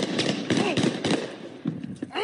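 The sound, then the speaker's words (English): Gunfire at night in Roxbury: several sharp, loud bangs in quick succession, mixed with people talking throughout. “This Facebook Live video posted last week captures gunfire at night in Roxbury.”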